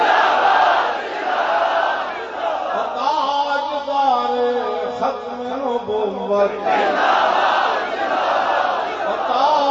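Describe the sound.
A crowd chants the religious slogan Tajdar-e-Khatm-e-Nabuwwat: a loud massed shout, then a single leading voice calling out, then the crowd bellowing back in unison.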